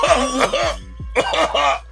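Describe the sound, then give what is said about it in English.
A few harsh coughs from a man who says he rarely coughs today, coming in two clusters of sharp bursts separated by a brief pause. “I can't talk for 5 minutes without coughing. Actually, I haven't coughed one time today until just right, just a second ago.”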